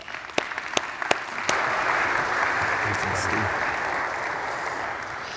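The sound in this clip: A church audience applauds to welcome a guest preacher. A few scattered claps quickly swell into full, sustained applause that holds steady to the end.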